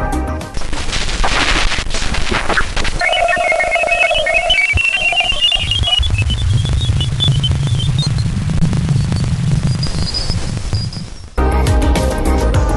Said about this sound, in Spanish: Ahora, si os parece bien, vamos a escuchar cómo suena la luna de Ganímedes.